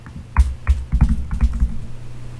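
Computer keyboard keys clacking loudly during deliberately heavy typing, with many sharp, uneven keystrokes in quick succession over a low steady hum.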